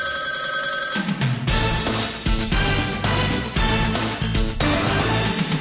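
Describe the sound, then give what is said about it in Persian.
A telephone bell rings loudly and without a break for the whole stretch, a dense, rattling metallic jangle that holds steady from start to finish. “حالا شنونده ارجمند متوجه باشید که یک زنگ دیگری را خواهید شنید، اما این نه زنگ آخر بلکه زنگ اول است که همه شما را به تماس دائمی با رادیوی آزادی دعوت می کند.”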